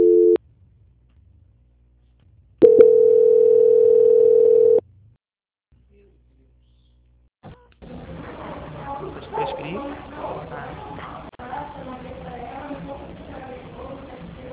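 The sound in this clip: Telephone tones during a call transfer to another department: a brief tone, a pause, then a steady tone of about two seconds, silence, and finally a voice talking on the line.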